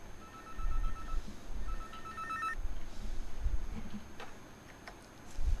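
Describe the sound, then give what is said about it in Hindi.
A telephone rings for an incoming caller on a radio show, giving two bursts of bright electronic trilling separated by a short pause, followed by faint ticking against a low background hum. “तो चलिए अब कार्यक्रम में आगे बढ़ते हैं और अगले कॉलर की कॉल लेते हैं।”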